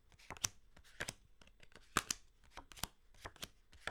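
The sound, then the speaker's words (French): Playing cards are dealt into four piles on a table, producing a quick, irregular run of crisp flicks and soft slaps, heard alone and quietly. “vous allez reprendre le paquet de cartes que vous avez sur la table, le prendre en main et le distribuer en quatre tas différents. Je le fais en même temps que vous.”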